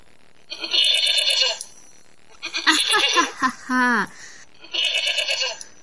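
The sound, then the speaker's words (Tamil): Sheep bleating in several loud, wavering, nasal calls separated by short pauses, one ending with a falling pitch. “என்ன இது, order sound கேக்குது?”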